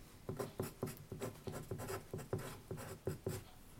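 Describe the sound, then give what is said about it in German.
Pen writing letters on paper during an escape game, many quick scratchy strokes in short rhythmic bursts, fairly faint and steady throughout, with no talk. “Schreib mal bitte auf. F-I-N-D-E.”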